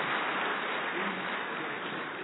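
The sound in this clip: Applause at a religious gathering on Diwali, congratulating a woman on her 73rd birthday: a dense, even wash of clapping, dull and muffled in tone.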